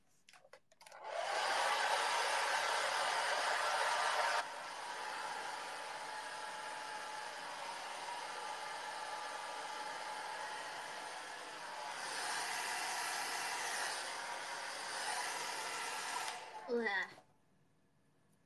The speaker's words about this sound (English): I can feel it. It's drying my hair at the speed of light.